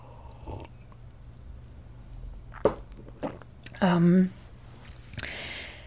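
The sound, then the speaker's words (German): A sip of coffee ends in a short, loud slurping burst, after a few faint clicks and knocks, with no talk. “Und jetzt muss ich kurz einen Schluck von dem Kaffee nehmen, bevor der nämlich kalt wird.”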